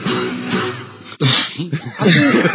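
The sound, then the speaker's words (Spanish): A sudden sharp sneeze bursts out in a radio sports newsroom, cutting abruptly through the voices and chuckling around it. “Jesús, o como se diga. Y así empezó a propagarse la gripe A por España. Ah, ese es el origen de la gripe A. Claro, claro, claro. Eso le puede pasar a cualquiera, ¿eh? Eso es estornudo en toda regla, ¿eh?”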